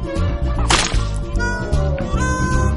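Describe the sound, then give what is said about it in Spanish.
A tomato squashed by hand in an animated comedy scene gives one short, wet splat that bursts out over steady background music near the start. “Hace que coja un tomate y se lo acerque para olerlo. Le hace coger otro que huele pero tira del pelo y Linguini lo aplasta ante la cara de Remy.”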